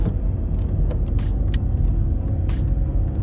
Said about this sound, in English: now I'm driving on the road that I was talking about